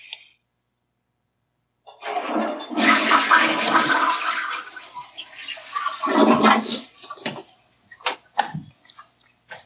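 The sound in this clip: A toilet flushes in a bathroom: a loud rush of water surges for several seconds, eases, swells again, then gives way to a few short clicks and clunks.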